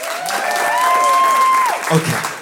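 An audience claps at a live storytelling performance, and a few sustained cheering whoops rise over steady, loud applause before it tapers near the end.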